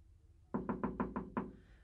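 Knocking on a door: six quick, evenly spaced knocks, the last one slightly delayed, fairly faint and dull, followed by quiet.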